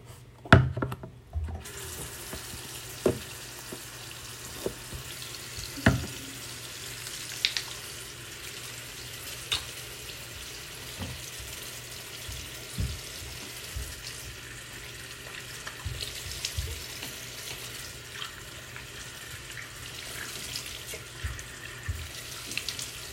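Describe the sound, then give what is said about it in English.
Tap water runs into a sink as someone washes their face at night, a steady hiss of flowing water broken by many splashes and light clatters, with no talk. “Okay, so I'm going to wash my face.”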